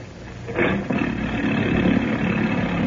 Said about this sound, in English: Why not take this boat, the Mary Ann? She's in ship-shape condition and just as comfortable. Very well. The Mary Ann it is. Give the motor a turn, will you, Denny?